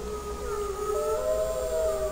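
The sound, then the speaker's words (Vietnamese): A long wolf howl, a sustained tonal cry that holds steady and then steps up in pitch partway through, carrying on unbroken to the end with no voices. “Sói Út khẽ hú lên một tiếng dài”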